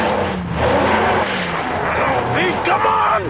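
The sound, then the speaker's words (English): A truck's wheel skids off a crumbling ledge road: a rough, steady engine roar with scraping tire noise and a squeal, as voices shout over it. “A wheel slides off the road.”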